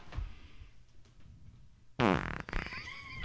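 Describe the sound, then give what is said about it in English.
A fart bursts out loud and rough partway through, after a stretch of quieter low rumbling and shuffling, then tails off with a few sputters. “Hang on, I gotta fart now.”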